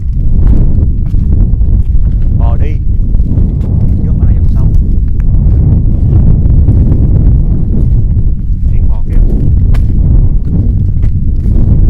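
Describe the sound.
Steady wind blows across the microphone outdoors near grazing cows, a loud, continuous low rumble that fills the whole clip without pause.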